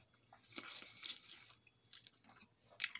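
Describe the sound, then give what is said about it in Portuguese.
Crisp, juicy crunches of someone chewing an apple, a few faint bites and squishy mastication sounds with short pauses between them. No talking is heard. “Tô comendo uma maçã agora. É muito boa.”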